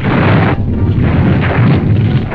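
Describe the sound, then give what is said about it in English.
Explosions from rocket-firing Typhoon fighter-bombers diving on German positions and blasting them at point-blank range. A loud, dense, continuous roar of blast noise rumbles without a break. “Augmenting the guns, rocket-firing typhoons dive like black meteors right on German positions. They blast with explosives at point-blank range.”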